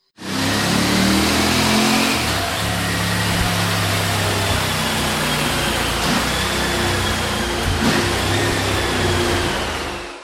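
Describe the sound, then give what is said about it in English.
A motorcycle engine, the MST version of the bike, runs hard on a dyno with a loud, sustained roar. A steady droning tone holds throughout, with mild swells in throttle and no breaks. “what I would like to do is play the actual dyno piece. So let's plug that in right quick so they can get a feel for the sound of the bike.”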